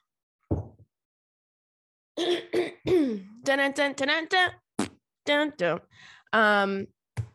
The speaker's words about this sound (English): I have something always stuck in my throat when I first start recording here